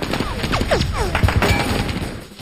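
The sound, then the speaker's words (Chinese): Heavy German gunfire rains down on American soldiers stranded on a bridge, with dense cracks and thuds, a quick cluster of heavy impacts mid-clip, and several falling whistling sweeps cutting through the loud, continuous battle noise. “在德军密集的火力之下，美国大兵们无处可藏。”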